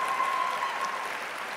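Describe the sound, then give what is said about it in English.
Audience applause at a Spelman College event honoring a guest, a smooth, even spread of clapping that stays steady and eases off slightly toward the end. “So let's give her our thanks and round of applause.”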